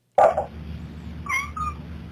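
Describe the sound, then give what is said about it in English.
House cats meowing: one loud, clear meow at the start, then a couple of shorter, fainter, higher-pitched calls, with no talking. “They're my cats.”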